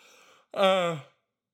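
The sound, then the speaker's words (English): A single drawn-out voiced yawn, about half a second long, swelling quickly and then fading away, clear and fairly loud with no talk over it. “I'm full of yawns tonight. I apologize.”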